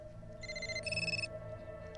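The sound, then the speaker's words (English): A scrambler telephone rings in a short electronic burst of bright, buzzing tones that shift pitch once midway, lasting under a second over a steady low hum. “The scrambler phone begins to ring.”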